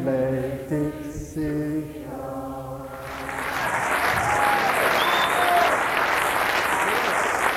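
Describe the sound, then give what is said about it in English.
A few seconds of sung chant fade out, and audience applause swells in to take its place, a dense, even clatter that holds steady to the end. “You applaud.”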